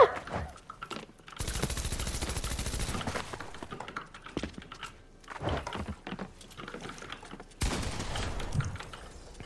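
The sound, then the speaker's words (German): Rapid gunfire in a video game as a player shoots through a wall, heard in two long dense bursts separated by quieter clicking and rustling. “er schießt durch die Wand!”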